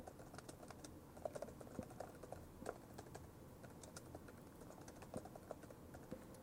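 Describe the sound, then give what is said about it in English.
Faint, rapid keystrokes on a computer keyboard as an email subject line is typed, many light taps at an uneven rhythm. “So I'm going to start my message by typing a subject confidential news media.”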